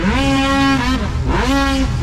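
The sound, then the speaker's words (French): Snowmobiles racing on water at a provincial racing championship, their engines a loud, continuous whining roar that climbs in pitch twice as the throttles are revved. “Beaucoup d'actions samedi le 8 août lors de la 20e édition du championnat provincial de course de motoneige sur l'eau à Frampton.”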